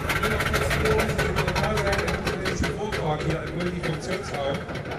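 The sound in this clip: A refurbished Trabant P601 car engine revving as the driver accelerates: a buzzy, rattling drone that stays loud and rough throughout.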